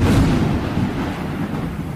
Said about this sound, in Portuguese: E, cara, daqui a pouco, começou uma chuvarada. Que venha a chuva!